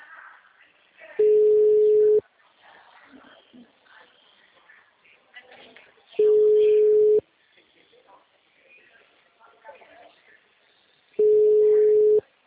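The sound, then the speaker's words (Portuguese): A telephone busy signal on a repeated call sounds as three steady, mid-pitched tones, each about a second long and evenly spaced, with faint talk in the gaps between them. “Tô ligando pra ela de novo. Deu a mesma coisa”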